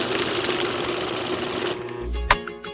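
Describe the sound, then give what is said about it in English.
A money counter whirs with a fast, even mechanical flutter, then stops and gives way to a brief low hum and a single sharp click. “The money counter has rang off one more time.”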